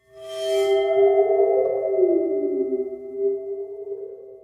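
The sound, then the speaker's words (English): Eerie sustained tones from a waterphone, a metal instrument with water sloshing inside, ringing alone with a bright onset, then a steady drone whose pitch wobbles and bends down and back up as it slowly fades. “It's a water phone. Water phone, yes. Which is like this metal thing that has some water at the bottom of it. That's why it kind of goes wobble, wobble, wobble.”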